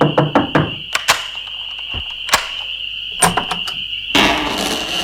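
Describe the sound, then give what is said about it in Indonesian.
A house door pounded roughly at night, many loud, sharp bangs in quick bursts separated by short pauses. “pintu rumah digedor dengan cara yang kasar”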